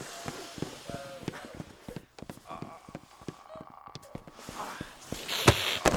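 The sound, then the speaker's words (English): People run away with many quick, uneven footsteps. The thuds patter in a rapid, irregular rhythm that grows louder toward the end. “Run! Go on, you two, fucking run!”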